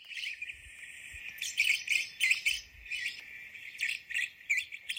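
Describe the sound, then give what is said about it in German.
Black-cheeked lovebirds give shrill, high-pitched chirping and piping, with many rapid, overlapping calls in uneven bursts that continue throughout without a break. “Und wir hören uns jetzt mal die Rußköpfchen, die Black-Cheeked Lovebirds an. So klingen sie.”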